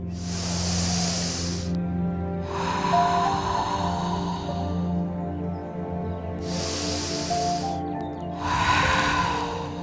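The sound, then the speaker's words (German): A few slow, deep breaths taken deliberately during a guided relaxation exercise, each one a long, airy rush of air with pauses between, heard over a soft, sustained tonal background. “Drei bewusste Atemzüge.”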